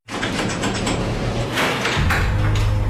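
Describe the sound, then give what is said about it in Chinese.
The iron lock on a prison cell door in a concentration camp opens with a loud, sustained metallic grinding and scraping. A deeper rumble takes over for the final second. “随着铁锁的打开，强烈的光线瞬间照射进来。”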